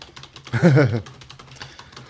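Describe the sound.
Fingers type emails on a computer keyboard, quick light key clicks in an uneven run, interrupted by a brief voiced sound.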